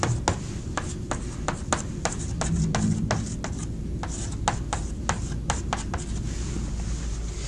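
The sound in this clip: Hand-writing of an equation, with a rapid series of many short scratchy strokes and taps from a writing tool over a steady low background hum, with no talking.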